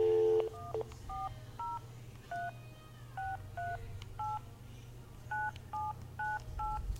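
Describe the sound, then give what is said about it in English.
Touch-tone telephone dialing a long-distance number with a leading 1 and an area code, a long string of short two-tone beeps in an uneven rhythm, fairly quiet over a low steady hum. “I'm going to go ahead and dial it with the one in area code like it says.”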